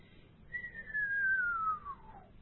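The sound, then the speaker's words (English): A radio whistler caused by a lightning strike in New Zealand: a single clear whistling tone slides smoothly downward in pitch over about a second and a half, alone above a faint hiss. “A descending whistling note starts with the high frequencies, ends up with the low frequencies. And that's caused by a lightning strike in New Zealand.”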